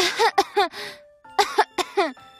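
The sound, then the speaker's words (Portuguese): A small, delicate voice coughing in two quick clusters of short, voiced bursts with a brief pause between them, alone and with no other sound. “Adeus! Repetiu ele. A flor tossiu.”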